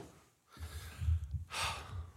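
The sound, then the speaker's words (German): A person breathes heavily after running, with a few loud, rushing breaths over a quiet background and no talk. “Ich atme einfach nur so schwer, weil ich das von mir gelaufen bin.”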